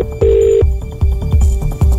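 A telephone rings in one short steady electronic burst near the start, followed by a run of rhythmic low thumping pulses.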